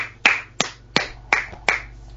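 Hand claps welcoming a preacher at a church gathering: five sharp, crisp claps spaced evenly about a third of a second apart, each decaying quickly over a faint low hum.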